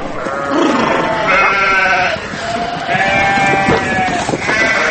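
Many sheep bleat over one another as a reduced flock, thinned by a harsh winter, is driven out to summer mountain pasture, a loud, continuous chorus of overlapping wavering calls.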